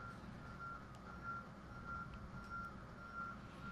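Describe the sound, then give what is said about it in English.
Faint reversing beeps from a vehicle backing up on a busy road. Single-pitched tones repeat at an even pace, roughly every two-thirds of a second, over a low traffic rumble. “Yes, we can hear something backing up.”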